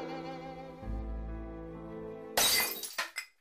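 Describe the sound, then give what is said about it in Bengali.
Glass shatters in a kitchen, leaving the floor full of shards. A sustained low tonal drone gives way to a sudden loud crash, then scattered tinkling fragments fade out in a few short bursts. “রান্নাঘরের মেঝেটা কাঁচের টুকরোয় ভর্তি”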